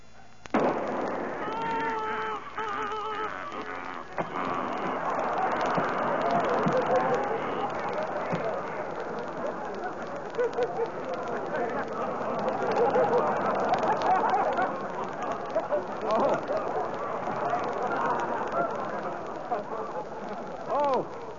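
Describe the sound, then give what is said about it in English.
A gunshot during target shooting, then a flock of ducks quacking and honking. A sharp crack opens, followed by dense, overlapping, raucous calls from many birds that stay loud and continuous for about twenty seconds. “Jeepers, he shot a flock of ducks.”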